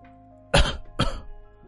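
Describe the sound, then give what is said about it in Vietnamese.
Two harsh coughs come in quick succession, loud and clear with no talk around them. A faint low sound follows at the very end. “Bất chợt A Hắc ho liên tục khiến Lão Hồ cao mày.”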